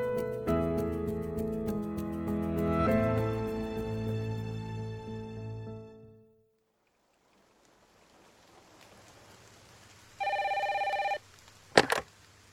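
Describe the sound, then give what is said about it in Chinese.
A telephone rings once in a short, buzzing electronic burst as a call goes through to an office that doubles as a home. Music fades out before it, and a sharp click follows. “小冢一成把电话打到了金枝直寺的事务所兼住处。”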